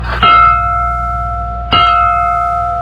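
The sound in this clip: An alarm bell signalling war is struck twice, about a second and a half apart. Each sharp clang rings on in a steady, sustained tone.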